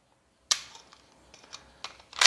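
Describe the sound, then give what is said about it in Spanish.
A few sharp mechanical clicks from a firearm, sold mainly through Mexico's national defense ministry, as its lever is pushed back to its original position. The clicks come irregularly between brief quiet moments, with a louder cluster at the end. “Regresamos su palanca a su posición original. Queda lista.”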